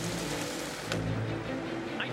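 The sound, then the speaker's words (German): Heavy rain pours relentlessly down on a football stadium in Bern during a match, making a dense, steady hiss and patter that fills the whole clip without a break. “Der Regen prasselt unaufhörlich hernieder.”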